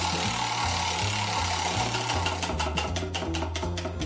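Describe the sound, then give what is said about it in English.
A tombola prize wheel spinning, ticking rapidly. The clicks become distinct and separate in the second half, over a steady low mechanical hum. “All right, let's give the wheel a spin and see what it lands on.”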